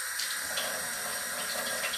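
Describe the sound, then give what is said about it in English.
Running tap water as someone washes their hands at a sink: a steady, even hiss of flowing water with no voices. “Gosh, I'm gonna wash my hands real quick here.”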